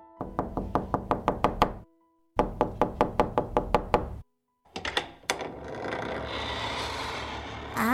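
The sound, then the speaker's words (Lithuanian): Knuckles rap on the little door of a rabbit's house heaped with maple and birch leaves, in two quick runs of many crisp, even knocks, followed by a sharp clack and then scraping and rustling. “Triušiuko namelis užpustytas klevo ir beržo lapais. Tuoj pabelsiu į dureles.”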